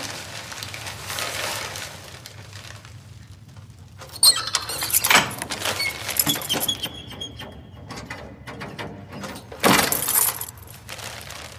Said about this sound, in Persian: ببخشید این در باز نمیشه. آه اون زبونش خرابه، قفلشو انداختم.